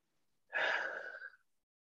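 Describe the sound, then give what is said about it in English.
A long exhale, taken as a deliberate group breath out, comes as one soft, airy rush that swells and fades over about a second, alone without talk. “Yes, let's like take a breather, like collective like breath out.”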